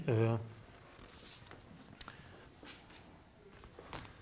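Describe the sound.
Handwriting during a physics lecture on vectors: a voice speaks briefly at the start, then soft scratchy strokes and light taps follow at an irregular pace, faint and mostly alone.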